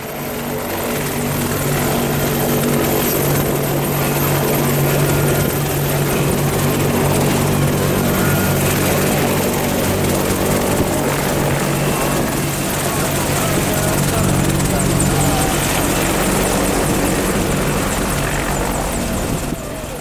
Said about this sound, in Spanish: me, voy aquí a, mi Apache que está ahí al copiloto ahí esperándome para, para despegar